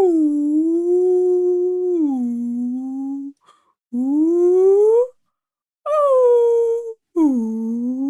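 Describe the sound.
A person imitates whale sounds with four long, drawn-out moaning wails, low and richly harmonic, bending up and down in pitch, separated by short silent pauses.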